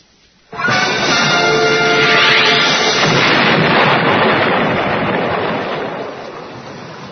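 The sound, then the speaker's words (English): An explosion blows the roof off the Institute building and sets it on fire: a sudden loud blast, then a long, dense rumbling roar that slowly fades. “The roof just blew off the Institute. It's on fire.”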